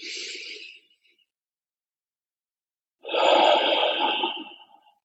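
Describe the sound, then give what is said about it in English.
Slow breathing during meditation: two soft, airy breaths separated by a silent pause, the second longer and fuller. “Breathing in and breathing out. Again.”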